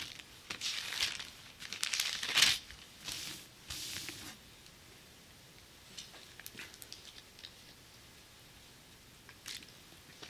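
Bible pages turning as an audience looks up a passage in 1 Corinthians. Papery rustles and crinkles come in quick clustered bursts at first, then thin out to a few faint, scattered flicks.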